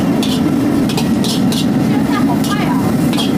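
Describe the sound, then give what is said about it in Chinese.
Rib-tip beef from yellow cattle is stir-fried nonstop in a smoking-hot wok. A loud, steady sizzling roar runs throughout, broken by repeated bright scrapes as the meat is tossed. “一定要把这个锅烧得有点冒烟，这个要不停的翻炒”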